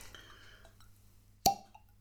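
A cork pops once as a bottle is opened, a short, fairly soft pop after a stretch of near silence.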